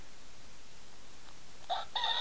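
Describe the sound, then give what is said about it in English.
A toy rooster's electronic crow: a short, thin, high-pitched cock-a-doodle-doo in two brief bursts at the very end, rising clearly over a steady background hiss. “Here's a rooster. Oh, that's a rooster.”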